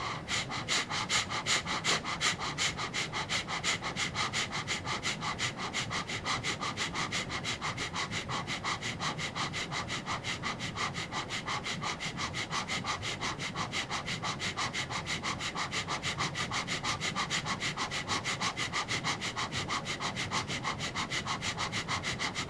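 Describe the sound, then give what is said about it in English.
Rapid rhythmic breathing during a morning meditation and breathing exercise: many quick, sharp, sniff-like breaths repeat in a steady fast rhythm throughout, with even loudness and no talking. “Gentle breath Then again, and a little faster.”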